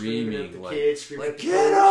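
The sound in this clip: A voice imitates parents yelling from the stands at a youth sports game, giving a strained, bellowing shout that holds steady for about two seconds with a brief dip in the middle.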